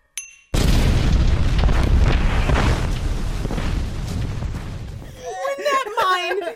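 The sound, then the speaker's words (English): A torpedo striking an old naval sea mine and exploding: after a brief quiet start, a sudden loud blast swells into a long, rumbling roar that slowly fades before a voice speaks at the end. “When that torpedo hits that mine, it just goes ding!”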